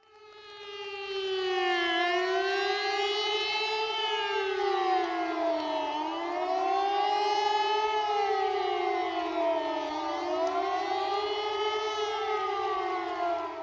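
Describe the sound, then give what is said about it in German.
A civil defense warning siren wails alone and loudly. Its tone rises and falls in slow, smooth cycles, sweeping up and down several times without pause. “die Warnmeldung ist ein an- und abschwellender Sirenenton und die Endwahrnehmung ist ein Dauersirenenton. Okay. Wollen wir da mal reinhören? Ja. Alles klar. Also dieses hier wäre ein Warnton.”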